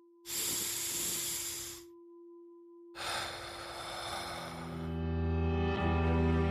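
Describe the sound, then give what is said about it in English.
A deep breath in and out: a long, airy inhale lasting about a second and a half, a short pause, then a longer, breathy exhale, with a faint steady tone underneath. “Let's take a deep breath. Wherever you are, feel those ribs expand, that chest lifts towards your chin. Let's do it now.”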